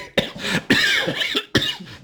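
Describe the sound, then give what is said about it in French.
Coughing in a cold cellar: three harsh bouts, the middle one long and rough with smaller catches inside it, each rising sharply out of near-quiet. “Ah, c'est froid dans la cave, ça fait tousser.”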